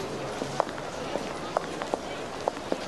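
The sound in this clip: Footsteps walking along the edge of the Berlin Holocaust Memorial toward Hannah-Arendt-Straße, sharp steps landing in a steady series over a constant background hiss.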